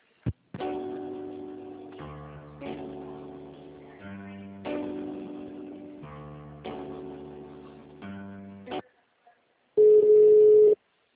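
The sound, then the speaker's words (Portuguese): A telephone line plays a hold melody while a call is being transferred: a loud electronic tune of sustained tones that changes pitch about once a second, then falls silent and ends with one steady beep. “eu vou transferir a ligação”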